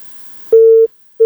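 A telephone busy signal after a call-in line cuts off: steady, mid-pitched beeps, one full tone followed by the start of the next, breaking in after faint line hiss.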